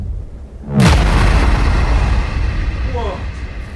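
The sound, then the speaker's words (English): Synthesized gun sound effect: a sudden loud booming burst that swells into a dense, sustained rumbling roar and holds steady to the end. “I wanted to make a gun sound. It's winding up.”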